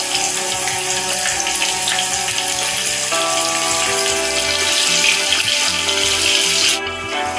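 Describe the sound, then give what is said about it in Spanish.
King prawns fry in a pan with garlic, giving a steady, loud sizzling hiss that lasts throughout, with music playing underneath. “Freímos los ajos hasta que empiecen a oler bien. Freímos los gambones un poco”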